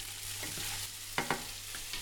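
Soft, faint sizzle of vegan scrambled egg being briefly fried in a pan, with a couple of quick stirring scrapes near the middle over the steady frying hiss.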